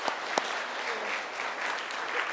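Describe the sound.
Steady applause from a Baptist church audience welcoming a speaker to the front, a dense, even patter of many hands clapping without a break.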